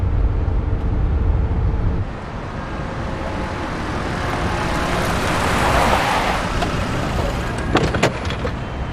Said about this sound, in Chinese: 来了， 捷达呀？ 银色捷达。